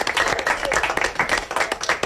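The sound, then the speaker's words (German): Applause from a crowd at a university of applied sciences as people follow a satellite launch: dense, steady clapping with no break, fairly loud throughout. “Applaus gibt's aber eben auch Zwindisch in der Fachhochschule.”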